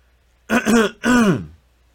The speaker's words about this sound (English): Sorry, my throat. I probably should drink something.